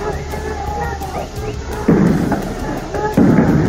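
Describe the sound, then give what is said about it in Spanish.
Police fire tear gas grenades at students throwing bottles and molotov cocktails during a street clash: two dull, booming thumps stand out over a rough, rumbling background. “Disparos de gases lacrimógenos. Los estudiantes lanzan botellas y bombas molotov y la policía contesta con disparos de bombas de gases lacrimógenos.”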